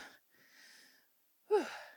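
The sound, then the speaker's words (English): Deep breaths taken to steady oneself: three separate airy breaths. The last is louder and has a wheezy, slightly voiced edge. “Sorry. Just taking some deep breaths because we are doing part 3 of Edgar Casey.”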